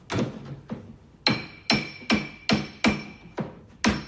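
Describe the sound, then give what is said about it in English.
A wooden mallet hammers a small statue into the gap between a metal door and its frame in a kitchen. Nine sharp knocks with a faint metallic ring come at an uneven pace, the first two softer and further apart, the rest louder. “In the kitchen, the man uses a wooden mallet to hammer the narrow top of the small statue between a metal door and its frame.”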